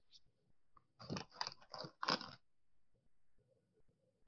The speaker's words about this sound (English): as I was eating another Dorito